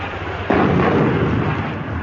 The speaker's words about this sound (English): they must think we're off the ship. They're definitely shelling us.